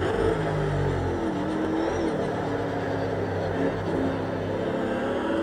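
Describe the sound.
Racing car engine accelerating hard on the throttle out of the Melbourne Loop on a circuit, a sustained loud roar that holds steady throughout.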